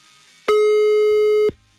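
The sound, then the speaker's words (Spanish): A telephone busy signal sounds during redialing as one loud, steady electronic tone lasting about a second. It cuts off abruptly, and a low hum follows. “Estamos marcando nuevamente, ¿eh?”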